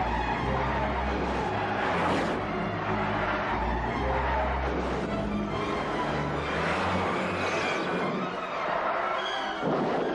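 A car skids after its brakes fail, with tire noise and engine roar merging into a dense, loud, continuous rush that barely lets up for the whole ten seconds.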